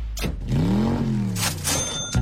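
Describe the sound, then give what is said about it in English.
A few cars driving past in quick succession, with whooshing bursts of tire and wind noise and an engine tone that rises and then falls as one vehicle goes by. “I was like, were those cars? Here they come again.”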